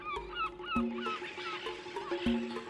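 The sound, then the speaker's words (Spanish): Harsh honking calls from a seabird colony of gulls, cormorants and gannets gathered to breed by the sea. The calls overlap in a dense, continuous chorus, with a few louder, lower honks standing out. “Millones y millones de gaviotas, cormoranes o alcatraces se reúnen para criar allí donde los océanos son especialmente ricos en alimentos.”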